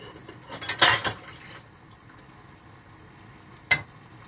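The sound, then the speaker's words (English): A bowl being taken out and set down, heard as a short clattering knock of crockery. A quiet pause follows, then one sharper clink near the end. “Right, let's get the bowl.”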